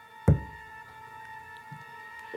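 A single dull, low knock sounds in an archival séance recording, as if answering a call to a spirit, followed by faint background hum with no further clear knocks.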